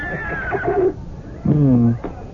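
A horse whinnies in a radio drama as a prized warhorse is shown at a royal court. Two loud, voiced calls follow each other, each holding a strong harmonic tone, with no talk over them.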